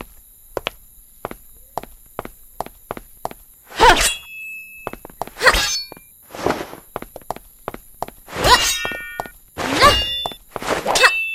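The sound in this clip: Swords clash in a fight. Several loud, ringing metallic clangs break through a steady run of sharp clicks and knocks, with uneven rhythm.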